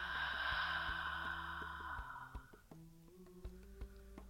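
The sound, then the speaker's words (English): A slow, deep breath taken during a guided breathing exercise: a soft, airy hiss that fades over about two seconds. Quiet, gentle low tones ring underneath and carry on after the breath ends. “Again, inhale and exhale.”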